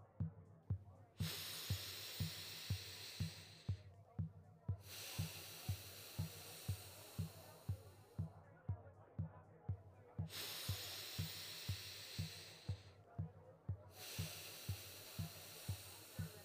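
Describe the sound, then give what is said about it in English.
Slow, deep breaths are drawn in through the nose and let out gently during a guided meditation. Two full cycles of long, soft, airy inhales and exhales sit over a steady, faint pulsing beat. “To take a slow, deep breath in through my nose and a slow, gentle, deep breath out.”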